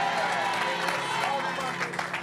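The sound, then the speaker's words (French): Church audience applauding and cheering in praise, a short burst of dense clapping with voices mixed into the steady noise. “On acclame le Seigneur.”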